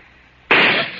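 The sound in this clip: A single gunshot cracks out halfway through, a sudden loud blast after a quiet low hum, leaving a noisy tail that fades only slightly.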